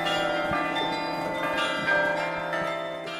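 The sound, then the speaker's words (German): A deep tone rings from a man-sized iron bell in a snowy landscape, its long sustained hum layered with overlapping strikes that keep the ringing steady and full. “Und eine mannshohe Eisenglocke schickt ihren tiefen Ton in die verschneite Landschaft.”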